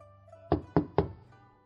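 Knocking on a door: three sharp, evenly spaced knocks in quick succession over a faint, steady low hum, with no voices.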